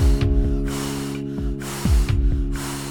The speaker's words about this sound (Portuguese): Está tão quente a queimar, que vou ter de lhe soprar.